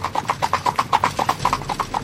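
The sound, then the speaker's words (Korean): A horse-drawn carriage picks up speed to clip-clop of hooves. Many sharp hoof strikes follow in a fast, steady rhythm, clear and even throughout. “그 소리가 신호라도 되는 듯 갑자기 마차가 속력을 냈다.”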